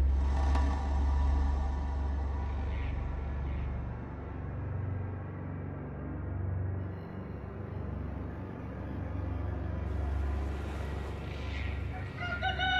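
A rooster crows at dawn in a riverside village. It gives a few loud, bright calls with some clucking between them, over a steady low background hum.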